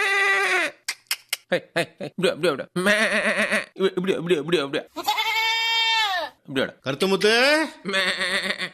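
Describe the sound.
Goat bleats, several wavering, nasal cries, mixed in with people talking.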